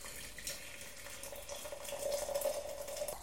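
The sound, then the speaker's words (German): Hot water poured from a tilted kettle into a teapot holding loose tea, a steady hissing, splashing stream with a faint ringing tone that grows slightly louder toward the end. “Er brühte die Teekanne aus, schwenkte sie, schüttete weg und tat vier volle Löffel Tee hinein, den Kessel dann schrägend, um Wasser einfließen zu lassen.”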